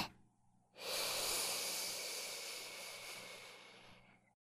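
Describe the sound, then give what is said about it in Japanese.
A single deep inhalation during a guided breathing exercise: a long, steady, breathy hiss that rises quickly and then slowly fades over about three and a half seconds, with no talking. “そのままもう一回、深呼吸をしよっか。吸って。”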